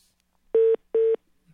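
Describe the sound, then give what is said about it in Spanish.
Two identical telephone tone beeps, steady and mid-pitched with a buzzy edge, each lasting about a fifth of a second and separated by a short gap, heard alone with no talk. “Como si le hubiera entrado una llamada, quizás, ¿no?”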